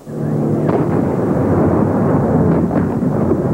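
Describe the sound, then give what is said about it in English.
A T-80 tank fires a 125-millimeter shell point blank into a building during armed street fighting in Moscow. A sudden loud blast rolls straight into a heavy, sustained roar and rumble that lasts to the end. “A T-80 tank fires another 125-millimeter shell point blank into the building”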